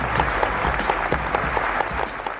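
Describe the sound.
Audience applause welcoming a speaker to the stage: dense, steady clapping from many hands that holds at an even level from start to finish, with no talk.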